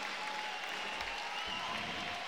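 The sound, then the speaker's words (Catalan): Crowd applause for a player who is a three-time European champion, heard during a match. The clapping is even and fairly quiet, holding at one level without a break. “Aquests aplaudiments són per el tres vegades campió d'Europa de Mopa, Kevin.”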